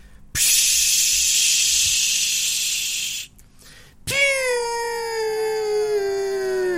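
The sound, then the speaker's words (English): A voice imitates the long, steady hiss of someone inhaling nitrous oxide from a balloon, lasting about three seconds. After a brief pause comes a high, strained vocal tone that slowly falls in pitch. “Somebody packed themselves a whippet like they're Steve-O in 2002, inhaled the balloon, and started to laugh.”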